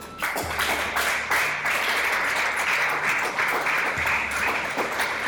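A church audience claps and acclaims in a continuous, dense burst of applause that stays loud and even from start to finish.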